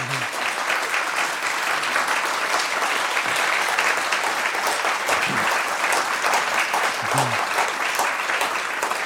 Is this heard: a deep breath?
no